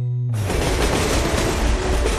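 A loud, continuous rumbling roar of a commuter train running on rails. It starts abruptly after a brief tonal hum and holds a dense, steady, rattling wash of noise to the end.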